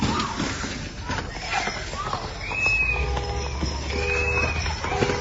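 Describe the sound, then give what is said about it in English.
Horse hooves clip-clop as the animal pulls a buggy carriage, a faint, uneven rhythm under a steady background wash, with birds chirping now and then. “These white women are driving a horse and buggy carriage, some kind of carriage ride.”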